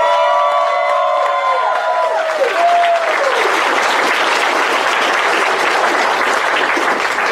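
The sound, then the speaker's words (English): An audience at a Dragoncon 2019 live show applauds the cast of Dungeons and Randomness. A voice speaks over the opening, then loud, sustained clapping and cheering fill the rest. “Ladies and gentlemen, please give it up for the cast of Dungeons and Randomness for getting through.”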